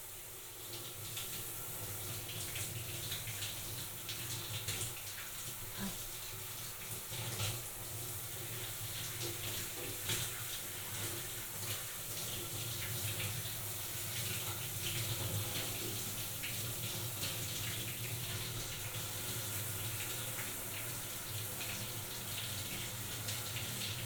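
Water runs from a tap while someone is being washed and rinsed, a continuous soft splashing flow. It stays faint and even throughout, with small irregular spatters and no voices.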